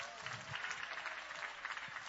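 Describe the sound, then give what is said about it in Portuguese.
Congregation clapping hands together during a church service, a dense, steady wash of claps with no clear gaps, with faint voices underneath. “Bate as palmas para Jesus. Bate as palmas e dá glória.”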